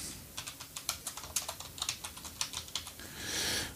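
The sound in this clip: Someone types a review on a computer keyboard. Many quick, irregular key clicks are soft but crisp and end in a short swelling rush of noise.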